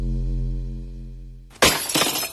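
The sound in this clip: A car windshield shatters in a sudden, loud burst of breaking glass. A low, steady humming tone comes first, and the crackling debris continues after the break.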